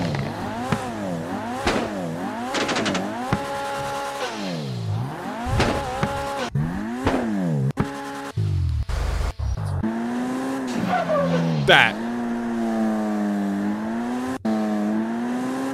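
A car's turbo engine with a wastegate and no flutter revs again and again, its whining tones sweeping up and down in pitch, broken by sharp cutoffs and brief hissing bursts.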